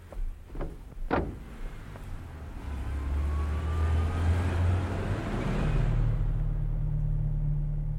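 A few clunks, like car doors shutting, then a car engine starts and settles into a steady low rumble that grows fuller as the car drives off.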